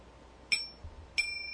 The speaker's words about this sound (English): I knew that was coming. That's our little chime to say that we're just going to close down on this little episode segment here.